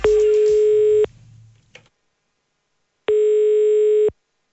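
A ringback tone sounds while phoning a business: two flat, steady one-second beeps separated by about two seconds of silence, with a faint brief rustle after the first. No talk.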